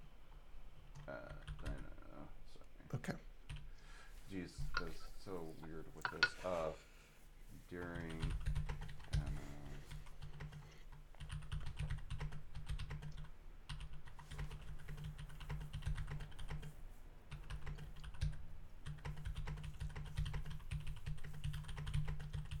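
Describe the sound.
Typing a note on a computer keyboard: a long stream of many quick, faint clicks and taps over a low steady hum, with a person talking briefly near the start.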